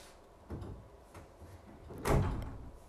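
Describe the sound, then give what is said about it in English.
A dog bumping and scratching at a closed bedroom door, trying to get in: a few muffled thumps and rattles at a low level, with the loudest knock near the end. “my dog is trying to break into my room because he doesn't like closed doors”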